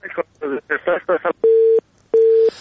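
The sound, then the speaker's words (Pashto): Telephone buttons being pressed produce two steady electronic tones, each held for about a third of a second with a short gap between them. They follow a brief stretch of speech. “خبرونه ته د تلیفون په سویچو باندې ګوتې مو وهنو. دا ټونګ ټونګې مونږ ته راځي.”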